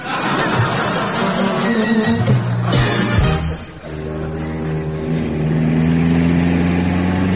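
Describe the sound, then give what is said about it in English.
A car driven fast in a race on Long Island, giving a continuous, loud, mid-pitched engine roar that wavers, dips briefly near the middle, then settles into a steadier droning tone. “Hey, you better drive slower. We might miss it.”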